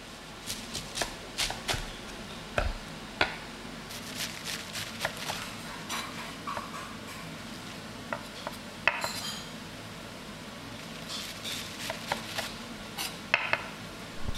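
A knife chops flat-leaved Chinese chives into small squares, making many light, crisp taps in an uneven rhythm. The taps stay fairly quiet, with brief pauses between bursts.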